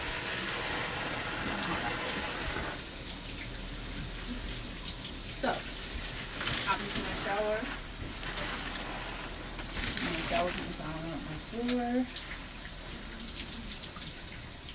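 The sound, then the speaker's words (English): Shower water runs steadily as someone washes their hair, a constant broad hiss throughout, with a voice talking over it at times. “So I'm going to hop in the shower and wash my hair.”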